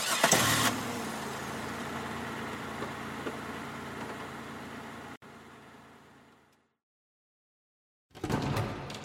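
A car engine starts with a burst of cranking noise, then runs at a steady idle for about five seconds before cutting out and fading into silence. A loud burst of engine noise returns near the end.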